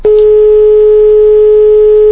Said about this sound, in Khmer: យើងសូមរងចាំបន្តិចដោយសារតែប្រហែលជាយើងដាច់នៅប្រព័ន្ធទូរស័ព្ទរបស់គាត់